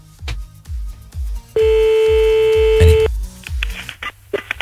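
Telephone tones as a number is dialed for a phone call: a steady held tone lasting about a second and a half over a pulsing low bass beat, followed by a few short, choppy bursts.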